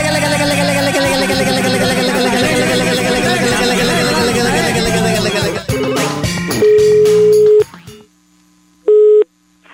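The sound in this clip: A telephone call is being placed after loud talking. A steady electronic tone sounds for about a second, then comes a pause and a second, shorter tone.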